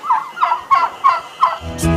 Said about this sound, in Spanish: El invitado de honor de esta fecha es originario de México. Sus primeros registros datan de 2000 años antes de Cristo y lo conocen como guajolote.